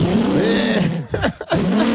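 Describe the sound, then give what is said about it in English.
A Lamborghini sports car engine revs at a country wedding. The harmonic engine note swells upward, drops back, breaks into short choppy bursts mid-way, then climbs again. “I didn't know the Lamborghini was coming.”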